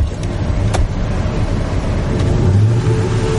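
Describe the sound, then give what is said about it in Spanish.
Car reversing while parking on a street in an action film, a low, steady engine hum with a brief swell in pitch and loudness near the end, plus a couple of faint clicks. “Da marcha atrás. Apaga los faros. Se apea.”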